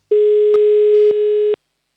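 A telephone call tone sounds while a number is dialed, a steady single-pitched tone held for about a second and a half, broken by a few brief clicks before it cuts off abruptly.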